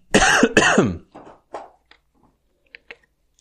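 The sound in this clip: Two forceful coughs burst out after something went down the wrong way, followed by a few much fainter throat-clearing sounds.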